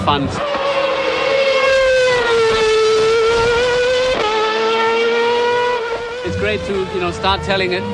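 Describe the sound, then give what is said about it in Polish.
A race car running on zero-emission fuel roars loudly and continuously, its engine note holding a strong whine that dips and climbs as it revs, with rougher engine noise toward the end. “Bolid był zasilany paliwem zeroemisyjnym. Jak widać i słychać, samochód ma tyle samo mocy, a my jako kierowcy mieliśmy tyle samo radości z jazdy.”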